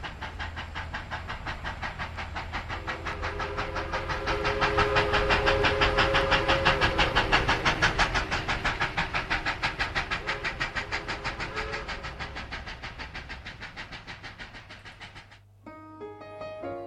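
A rolling passenger train with a steady rhythmic clickety-clack, a sustained whistle-like tone through the middle stretch, and a few piano notes entering just as the rumble cuts off at the end.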